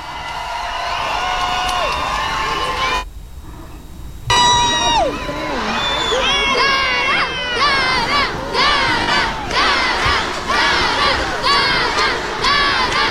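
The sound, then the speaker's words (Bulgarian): Fans at Sofia airport cheer and shout as they welcome a singer home after a song contest win. The crowd noise is loud and continuous, with many overlapping shouts, whoops and calls rising and falling throughout. “Чуваме, че има много фенове, които са там да я посрещнат.”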